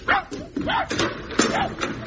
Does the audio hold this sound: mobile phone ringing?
no